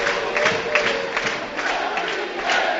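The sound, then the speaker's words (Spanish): Crowd at a Burgos football match roars and cheers in the stadium, a loud, continuous wash of voices with shouts swelling in several surges. “Mira, mira cómo se pone el público.”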